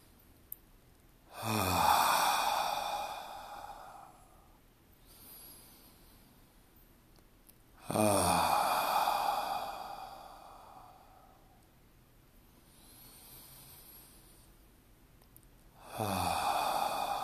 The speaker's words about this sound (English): Let's do three sweeping breaths and end with an om.